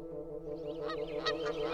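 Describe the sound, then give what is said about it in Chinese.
Wild geese honk as they fly down from a church bell tower and circle over a city. Their nasal calls overlap into a busy chorus that grows fuller and louder. “这时，大雁们从教堂的钟楼上飞了下来，在城市上空来回盘旋。”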